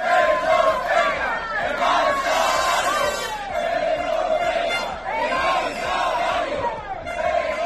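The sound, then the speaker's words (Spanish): Loud crowd of metal workers chanting in unison while blockading the entrances to a trade fair venue to demand better terms in a provincial collective labour agreement; rhythmic shouted chants run continuously with overlapping voices. “Este es el sonido de los trabajadores del metal que este martes bloquearon los accesos al IFEBI para pedir la negociación de mejoras laborales en el convenio colectivo provincial.”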